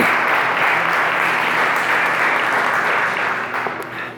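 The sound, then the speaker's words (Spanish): Audience applause from a crowd, a dense, steady wash of clapping that holds loud for about four seconds and then tapers off near the end, with no talking over it. “Démosles un aplauso.”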